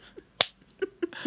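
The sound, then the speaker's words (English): A single sharp hand slap from a self high-five, one crisp clap-like smack standing alone amid near silence. “The sound you hear is me high-fiving myself.”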